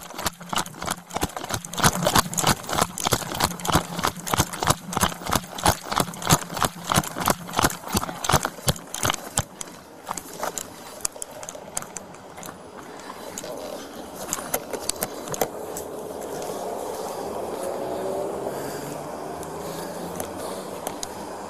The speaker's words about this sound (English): The noise you hear is the officer running with the ballistic shield, and he's got his body-worn camera on.